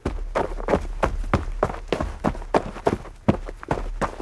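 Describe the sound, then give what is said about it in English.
Foley footsteps made by walking on one spot to fake running: many quick, thudding steps in a steady, even rhythm, with no talk. “And I'm walking on one specific spot, so like I have to fake that I'm kind of running”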